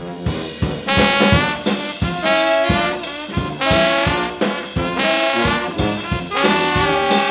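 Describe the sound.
A brass band plays the traditional New Orleans second line tune Joe Avery's Blues, of the kind played at parades and funerals. Loud horns play over a steady, driving beat with punchy accents.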